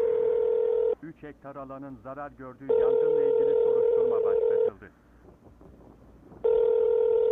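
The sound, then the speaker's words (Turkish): Telephone tones play over a speakerphone as a call is dialed: three long, steady, mid-pitched tone stretches, the last one cut off, with a voice talking in the gaps between them. “İyi, arıyorum. Hoparlörü alacağım.”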